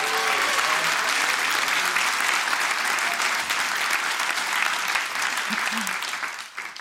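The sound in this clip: A debate audience applauds to welcome a speaker with dense, sustained clapping that stays loud and even, then tapers off in the final second.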